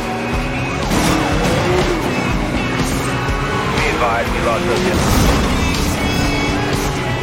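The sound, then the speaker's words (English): Loud roaring engine, tire squeals and crash impacts from the Need for Speed Most Wanted video game as the player's car wrecks a police car, continuous and dense throughout. “Dispatch, suspect just wrecked the police unit. They'll need assistance, over.”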